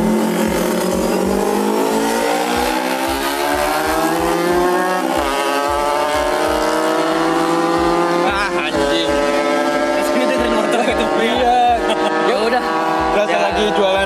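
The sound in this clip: Loud, continuous high-revving roar of MotoGP racing motorcycles passing on a circuit. The engine pitch climbs steadily, breaks partway through, then climbs again.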